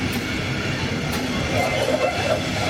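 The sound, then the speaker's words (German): Passing train hauled by a DB Class 114 locomotive in Munich, a steady, continuous rumble of rolling wheels and wagons that holds an even level throughout. “Mit einer nicht mehr ganz so verbreiteten Lok. Also eine Baureihe 114, die hat München noch nicht gesehen.”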